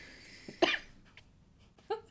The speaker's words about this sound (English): Yeah, I don't know why I randomly coughed.